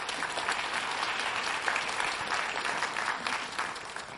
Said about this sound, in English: You guys give them a welcome up onto the stage.